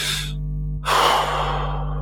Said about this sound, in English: closing my eyes, taking a deep breath, it helps me to relax.